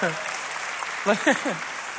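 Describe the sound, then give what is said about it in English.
Faint applause from a church audience, a soft, continuous patter that sits low throughout, with voices rising clearly over it in the second half. “I feel like I need to clarify. It's okay to clap and laugh in church.”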